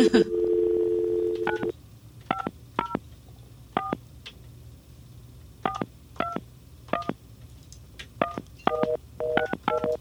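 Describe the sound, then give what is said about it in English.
A telephone number is dialed: a steady dial tone sounds first, then many short touch-tone beeps follow in irregular groups, each a clear, bright two-tone pip, over quiet background hiss. “I'm going to dial this number, and I hope I've got the board set up right to take this live.”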